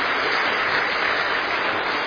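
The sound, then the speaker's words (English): Audience applause for a class's helpers: a dense, steady patter of many hands clapping, loud and unbroken for about two seconds. “I think we should give them another wee round of applause because the helpers did excellent.”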